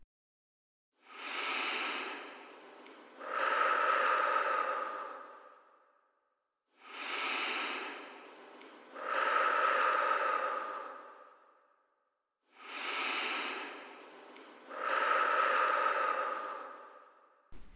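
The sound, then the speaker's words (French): Three slow, deep breaths are taken as a centering breathing exercise. Each breath has a long airy inhale followed by a fuller, longer whooshing exhale, with even pauses between them and no talking. “Et pour commencer, je vous propose trois grandes respirations pour se centrer.”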